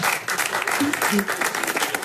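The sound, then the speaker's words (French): Hesitant, reluctant clapping comes from an audience member at a comedy show. The claps are sparse and uneven and sound under people talking. “C'est marrant parce qu'on sent qu'il applaudit parce qu'il est forcé”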